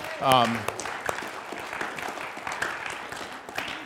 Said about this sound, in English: I don't want to judge us, but I think some of you cheered more for the Seahawks than that.